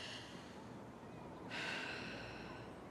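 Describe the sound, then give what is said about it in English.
A deep breath during a relaxation exercise: one short, airy rush of breath about halfway through, set against a faint background. “Drop your arms. Breathe.”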